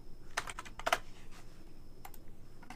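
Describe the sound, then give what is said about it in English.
Typing on a computer keyboard to enter a search term in trading chart software, faint key clicks in small irregular clusters with quiet gaps between them. “We're going to type in MACD.”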